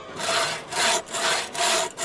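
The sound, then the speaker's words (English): A saw rasps through wood during a magician's sawing-a-woman-in-half trick, with several rhythmic back-and-forth strokes, each a loud, gritty swell with brief dips between. “He's sawing the woman in half.”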